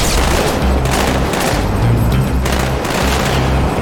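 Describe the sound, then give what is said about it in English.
An alien sniper rifle fires in a video game. Loud, heavy shots and booming blasts follow one another in quick succession, forming a dense, continuous barrage. “And now we got an alien sniper rifle, and it's actually weirdly effective.”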